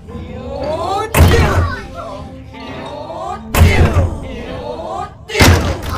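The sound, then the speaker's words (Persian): Heavy pounding on a laboratory door in an audio drama, three loud thuds spaced a couple of seconds apart, with a voice shouting between and over the blows. “کلونل به در آزمایشگاه میکوبه.”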